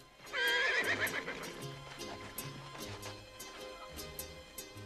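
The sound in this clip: A horse gives a loud, shrill whinny as three riders mount their horses, followed by a steady run of many hooves clip-clopping.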